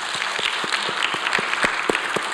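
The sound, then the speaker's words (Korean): A church audience claps hands together in a steady, even rhythm, many claps in near unison, fairly loud and without talk. “우리 한번 박수합시다.”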